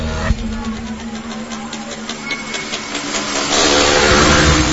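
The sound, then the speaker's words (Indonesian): A motorcycle engine revs as the rider accelerates. Its steady, buzzing drone carries strong tonal layers and swells louder toward the end. “Aku langsung menancap gas motorku pulang ke rumah.”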